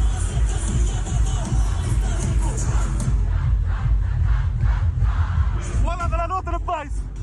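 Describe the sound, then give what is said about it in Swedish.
A festival crowd on Åland singing along to a song, a loud, dense massed roar of voices that carries throughout, with one wavering, pitched voice rising out of the crowd near the end. “Men när jag spelade den låten, och de sjunger, jag har aldrig hört en publik sjunga sådär.”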